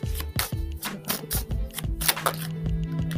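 Tarot cards being drawn and handled during a reading: many soft, quick taps and card snaps at an uneven rhythm over a steady low hum.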